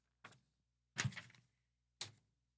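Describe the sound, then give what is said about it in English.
Papers being shuffled and rustling around a desk: three separate crisp, noisy bursts, each rising sharply and then fading, the middle one longest and loudest, with quiet gaps between them and no talk. “You hear those papers flying around?”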